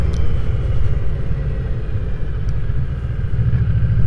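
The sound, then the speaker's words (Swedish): Steady engine rumble of a motorcycle being ridden along a road, a low continuous drone with wind noise that holds at an even loudness throughout, with no voices. “Så nu ska jag svänga av här mot Los Hamra. Jag vill berätta lite om den här vägen. Det är en fantastisk hoj att åka.”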